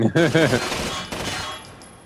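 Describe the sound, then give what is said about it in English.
Video game gunfire as enemies are shot: a brief voiced cry, then a sharp shot-like burst that trails away and fades out. “the noises they make in this game are possibly the best guys getting shot noises in any game.”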